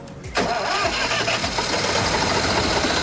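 A car engine, turned over with a screwdriver in place of the ignition key, catches abruptly after a quiet moment. It settles straight into a loud, rough, steady running rumble.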